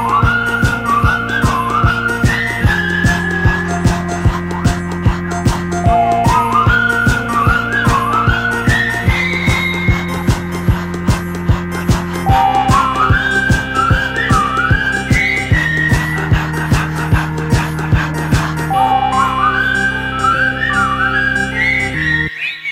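Whistled melody in an upbeat French pop song about the Tour de France cycling race: a bright, rising whistled phrase repeats about four times over a steady driving beat and bass, loud and continuous throughout.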